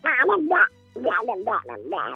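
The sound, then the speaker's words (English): A man's voice imitating a cartoon duck, squawking garbled, quacking phrases in two bursts split by a short pause, nasal and raspy throughout. “So I'm playing with my niece, my cousin, and I'm playing Donald Duck,”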